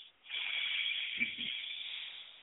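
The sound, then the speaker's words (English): A deep breath drawn in and let out through the nose, heard alone as a steady, airy hiss that swells, holds at an even level for about two seconds, then eases off. “let's just stop and take a deep breath. Take an inhale in through your nose and exhale through your nose.”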